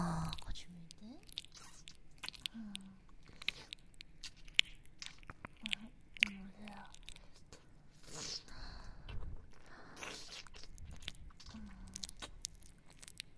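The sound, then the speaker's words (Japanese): Binaural ASMR ear licking from both sides produces soft, wet smacks and clicky licks that repeat irregularly throughout. Faint, brief hums of voice surface now and then between the quiet mouth sounds. “どうだ、左右同時からの耳なめ。女の子二人からペロペロペロペロペロってされちゃうの。”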